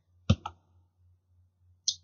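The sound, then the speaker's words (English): Computer mouse clicks on an OK button in a software dialog: two quick, sharp clicks close together, then a lighter, higher click a little later, over a faint steady low hum. “In this case, I'm using Routing and Remote Access. And I click OK.”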